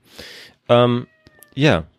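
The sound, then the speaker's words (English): A male house cat meows twice, loud and harmonic, with the second call rising then falling in pitch. A soft breathy noise comes before the meows, and a few faint clicks fall between them. “That's my cat. Oh, he's a really well-trained cat. He's really well socialized. Should we let him in? It's fine. He'll just meow.”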